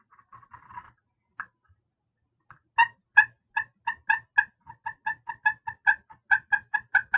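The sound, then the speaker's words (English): Clucks from a slate turkey call rubbed with a wooden dowel: a few short raspy scratches at first, then a steady run of many crisp, evenly spaced clucks, sharp and fairly loud, with no voices. “take that wooden dowel and just rub it across the slate, and you can do so many different noises.”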